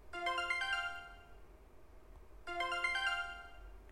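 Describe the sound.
An email notification chime sounds twice, each a bright, quick cascade of ringing electronic notes, clear against a quiet background.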